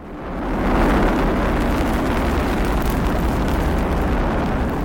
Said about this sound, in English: The sound of Ethiopia's first satellite being launched aboard a Chinese rocket, which was broadcast on state TV in Ethiopia.